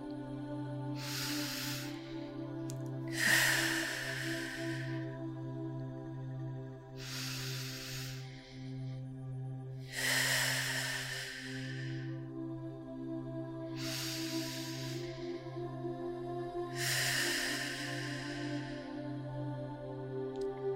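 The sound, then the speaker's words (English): Three deep breaths are taken slowly, each a soft, hissing inhale followed by a long, airy exhale. The breathing is fairly quiet and unhurried, over a steady low drone of calm music, with no talking. “Let's begin together by taking three deep breaths.”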